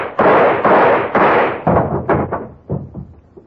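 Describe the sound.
A gun fired until empty in a dramatic film scene: several loud, booming shots in quick succession, the later ones growing weaker and fading out.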